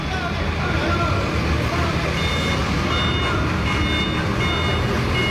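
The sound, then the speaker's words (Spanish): Heavy, steady road and engine noise on a city avenue as a stuck vehicle is pulled free, with faint high reversing beeps repeating at intervals throughout. “Están tratando de sacarle a este vehículo que se encuentra atascado.”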